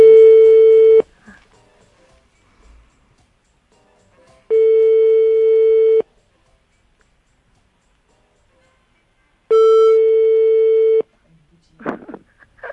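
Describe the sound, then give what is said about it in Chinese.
Telephone line tone on a call that is not getting through: three long, steady mid-pitched beeps, each about a second or more, separated by long silences, with a few faint short noises at the end. “现在可能电话不通了，因为他在打过来。”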